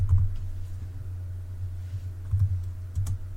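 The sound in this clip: Faint typing on a computer keyboard, a few scattered key clicks over a steady low hum.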